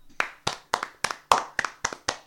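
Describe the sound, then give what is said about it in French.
Hand clapping as thanks after a show, sharp distinct claps in a steady rhythm, several landing as quick doubled hits, loud and with no talk over them. “Je fais des applaudissements un peu plus.”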